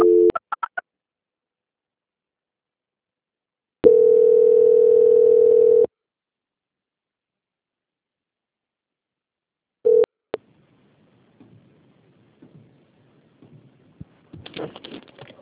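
Telephone line tones during a call transfer: a few brief tone bursts open, followed by a steady two-second tone, then another short tone and faint crackling line noise with scattered clicks.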